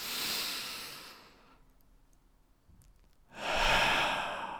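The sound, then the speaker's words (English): A deep, soft breath drawn in, then a quiet pause of about two seconds, then a long, breathy exhale let out all at once. “maybe you can try to relax during this podcast and take a deep breath in.”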